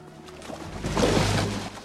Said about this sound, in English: Chris watches as Dobbs and Harry walk back to the rowing boat. They get in and the boat is pushed into the water.